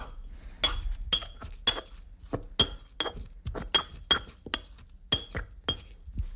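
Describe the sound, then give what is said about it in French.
A pestle crushes basil with coarse salt in a mortar, giving many sharp, clinking knocks in an uneven, fairly quick rhythm. Each strike is brief and bright, with quiet gaps between them. “Donc là j'ai rajouté à mon basilic un petit peu de gros sel. Et puis c'est parti, on y va au mortier. On écrase jusqu'à obtenir une bouillie verdâtre, épaisse finalement.”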